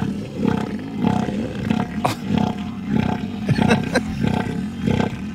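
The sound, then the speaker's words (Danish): An elephant seal vocalizing on land. It gives loud, throaty, pulsing roars repeated in a steady rhythm, each pulse rough and low, heard alone without talk. “Og du har noget lyd med dem. Altså, skal vi lige prøve at høre, hvordan lyder sådan en søelefant?”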